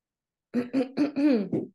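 Someone with a tickle in the throat clears it in five close, voiced, rasping bursts, loud and on their own with no talk around them.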